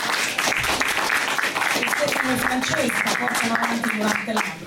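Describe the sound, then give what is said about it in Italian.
Applause for a festival's artistic director, with scattered clapping sustained throughout and voices talking over it. “Salutiamo con un applauso perché va sostenuto il lavoro”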